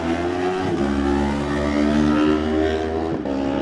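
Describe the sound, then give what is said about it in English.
A racing motorcycle roaring past on the Isle of Man TT road course along Glen Crutchery Road, a loud, sustained, high-revving engine drone with rich harmonics, holding a steady pitch throughout. “That's the sound we've been waiting for 12 months, Michael Dunlop flying his way down the Glen Crutchery Road. Yeah, next bike away.”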